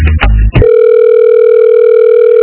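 A telephone line gives a steady, unbroken electronic tone as a call is transferred. A few short bursts come first, then the loud continuous tone holds to the end.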